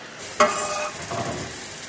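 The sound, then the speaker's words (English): Butter and flour being whisked together into a roux in a pan: a sharp clink as the whisk strikes, then a steady scraping, stirring rasp with a light sizzle underneath, moderately loud and without voices. “So I'm making a roux with some equal parts butter and flour. We're just going to whisk that together.”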